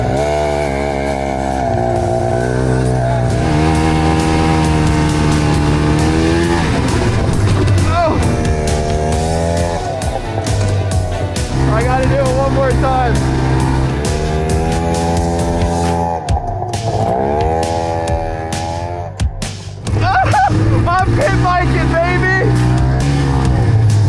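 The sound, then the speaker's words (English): A snowmobile engine riding on a snow-covered motocross track, a loud, continuous buzzing whine that repeatedly climbs and drops in pitch as the throttle opens and eases off. “the next thing I gotta take out is the snowmobile out to the motocross track. It's gonna be an absolute dream now that the motocross track is covered in snow to be able to ride motocross with the snowmobile.”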